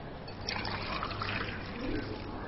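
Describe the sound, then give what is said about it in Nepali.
Hot water pouring from a thermos, a soft, steady trickling stream of liquid running for a couple of seconds. “त्यो थर्मसमा तातो पानी छ कि देऊ न थोरै रहेछ”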